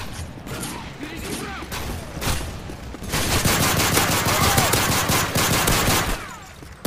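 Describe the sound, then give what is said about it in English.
A Cobra gun in a video game fires rapid automatic bursts. Scattered shots and mechanical clicks come first, then a long, loud, continuous stream of gunfire. “Do you like my gun? I think I'm a Cobra or something.”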